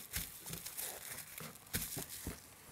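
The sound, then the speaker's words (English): Faint crinkling of a plastic sheet being laid down and folded over for a slippery elm poultice, in several short crackly bursts with softer rustling between them. “So you put the plastic down. This is a bit smaller, so I'll fold this over a little bit more.”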